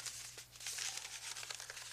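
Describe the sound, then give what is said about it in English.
Paper crinkling and rustling as a paper piano roll is fitted into a player piano, a soft, continuous crackle. “You put the paper piano roll in here.And then you push this button.”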